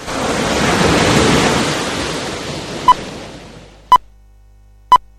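Sea waves in a station jingle: a broad swell of surf rises and then slowly fades, followed by three short, evenly spaced high beeps, with no voices.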